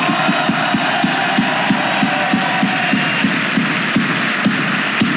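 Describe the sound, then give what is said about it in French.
Crowd applause from an audience at a political gathering, cheering guests from France's overseas territories, including Polynesians: a loud, dense, steady wash of clapping and crowd noise throughout, with sharp, evenly spaced beats pulsing through it from start to finish. “Avec nos amis d'outre-mer que je vous demande d'applaudir.”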